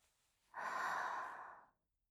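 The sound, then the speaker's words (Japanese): One slow, deep breath during a guided relaxation exercise, a soft airy exhale of about a second that swells quickly and fades away, quiet and alone. “私の声に合わせてゆっくり深呼吸をしていきましょう。”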